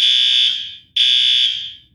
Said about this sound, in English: if the kitchen burns something and sets the fire alarm off, it also gets set off in our office